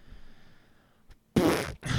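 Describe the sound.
A voice imitates a fart with a blown raspberry: a loud, buzzing burst after a quiet lead-in, then a short break and a second, briefer burst.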